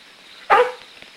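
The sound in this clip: A single sharp bark from a dog at a closed churchyard gate beside a cobblestone street, short and fairly loud, alone with no voices.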